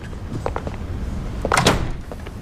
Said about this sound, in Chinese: 把门关上。